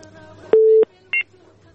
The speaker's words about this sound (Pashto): بلې سمه ده زه به اړیکه واخلم